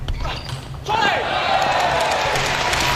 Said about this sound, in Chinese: 莫雷加德发球